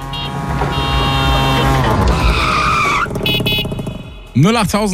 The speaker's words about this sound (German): Immer wenn ihr diesen Tuk-Tuk-Sound bei uns hört, ist das die Chance.